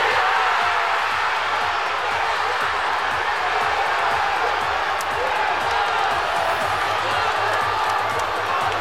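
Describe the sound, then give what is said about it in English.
Football supporters in Manchester cheering and celebrating England's winning goal in a World Cup match. A dense, continuous roar of many voices and shouts holds steady and loud from start to finish. “That's the sound of supporters celebrating in Manchester”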